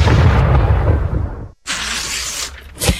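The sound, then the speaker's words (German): Fireworks exploding: a loud, deep rumbling boom that slowly fades, a brief gap, then a bright hissing crackle ending in a sharp pop. “Komet Feuerwerk, das knallt richtig.”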